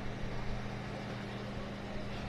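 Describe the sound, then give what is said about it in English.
Engine of a fire engine driving past an accident scene in Smithfield where a car crashed, a steady, dense low rumble with a constant droning hum and no siren, loud throughout. “There goes one of the rescues. There goes, excuse me, one of the fire engines.”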